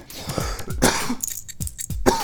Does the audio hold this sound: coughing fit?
yes

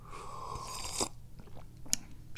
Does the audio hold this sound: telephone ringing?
no

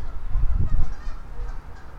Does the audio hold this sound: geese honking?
yes

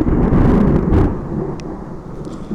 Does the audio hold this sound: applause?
no

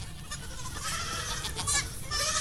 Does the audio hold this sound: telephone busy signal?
no

